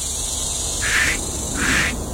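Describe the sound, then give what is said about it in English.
Cicadas buzzing on a summer day, a steady high insect drone that swells twice into louder, rasping pulses. “Can you hear it? It is what summer sounds like. For me, you know, I'm sure, no doubt, it's probably annoying to some folks, but to me, I can hear summer by hearing cicadas.”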